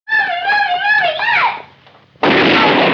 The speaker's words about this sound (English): the gun lands on the table and a gun shoots her mom in the back